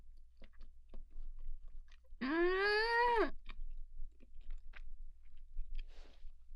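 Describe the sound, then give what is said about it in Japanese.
Chewing on the last bite of food: soft, intermittent crunchy clicks and mouth noises, with a sustained hummed tone in the middle and no talk. “やだな、最後の一口食べたくないな。あ、おいしい。食べちゃった。”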